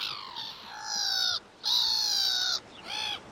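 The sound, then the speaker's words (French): Black-headed gull calls: a few harsh, nasal, squawking cries in quick succession, loud and alone, separated by short breaks. “un autre oiseau qui, contrairement à ce qu'on pourrait penser, n'est pas marin, lui, la mouette rieuse. Mouette, c'est à vous.”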